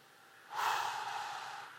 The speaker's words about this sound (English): I want you to inhale breath in your nose and let it out in your mouth